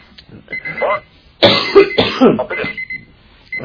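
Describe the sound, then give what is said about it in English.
Coughing and throat clearing in the background, heard as a few harsh, noisy bursts of uneven length clustered near the middle, with quieter murmuring sounds around them. “with all your coughing in the background there. I couldn't hear that last question”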